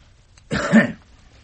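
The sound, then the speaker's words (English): A single short, husky cough given on request during a medical examination. The burst is brief and moderately loud, with no talk around it. “Now just give me a cough, will you? And again.”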